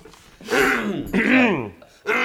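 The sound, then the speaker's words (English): A singer clears their throat in a radio studio before performing a song, with two drawn-out, voiced, gravelly rasps in a row and the start of a third cut off at the end. “My throat's clear.”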